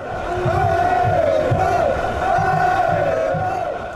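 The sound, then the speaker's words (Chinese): French football fans chant "Allez les Bleus" as a massed crowd, a loud, unbroken roar of many voices with a recurring rhythmic swell running through it. “为比赛造势，法国队的球迷最爱有节奏的喊口号 “Allez les Bleus”，法国蓝队加油！大家感受一下。”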